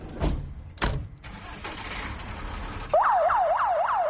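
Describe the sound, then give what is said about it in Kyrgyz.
An ambulance siren sounds as a private ambulance in Bishkek leaves on an emergency call. Vehicle and engine noise comes first, then a loud, fast warbling siren starts and rises and falls repeatedly until the end. “Мына ушинтип тез жардам кызматы кайрадан чакырыкка жөнөдү.”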